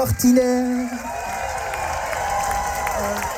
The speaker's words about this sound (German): Riesen Applaus!